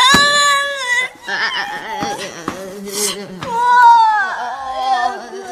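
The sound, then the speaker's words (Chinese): A person cries and wails loudly, with drawn-out, wavering vocal tones and brief sobbing breaks between cries. “你别哭了。就是大家都在，你就先别哭了，总能想出办法来的。”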